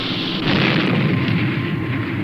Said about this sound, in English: Interlock on. Ready to fire. Okay. Fire one.